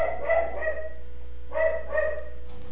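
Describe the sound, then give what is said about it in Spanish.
Dogs barking: two short runs of quick barks over a steady low hum, with a quiet pause between them. “Bueno, ya empezaron los perros.”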